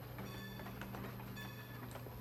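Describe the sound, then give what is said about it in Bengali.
Faint, steady rumble of a train running on rails, with a low hum and light, irregular clicks throughout. “ট্রেনের আওয়াজ। সেটা বুঝতে কারোর নিশ্চয়ই সমস্যা হয়নি”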